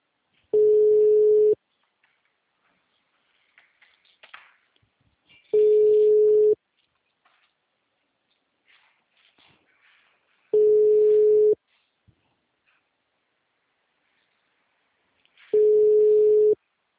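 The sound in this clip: Telephone call tones on a busy line: four loud, steady tones of about a second each at even intervals, with faint noise in the gaps between them.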